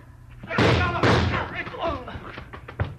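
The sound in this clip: A punch hits a man in a fight, heard as a few heavy, dull thuds amid tense voices and scuffling.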